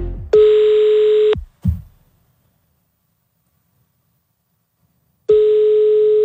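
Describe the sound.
Telephone dial tone as a call is placed: a steady electronic tone sounds for about a second, a short thump follows, then a long silence before the same tone returns. No voices.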